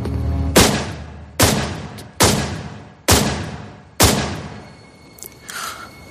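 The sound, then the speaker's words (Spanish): Five loud gunshots fired at close range come in a roughly even sequence, each a sharp bang followed by a decaying tail, with quieter sound after the last shot. “John Lennon acababa de recibir 5 disparos a quemarropa por la espalda.”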